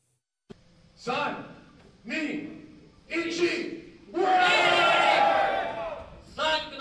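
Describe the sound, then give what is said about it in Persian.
A crowd cheers and shouts in several loud surges at a humanoid robot fight held in a cage in Tokyo, with the longest roar swelling near the end. “صدای برخورد فلز با فلز، تشویق تماشاگران و مبارزه‌ای که این بار نه میان انسان‌ها بلکه میان ربات‌های انسان‌نما جریان دارد.”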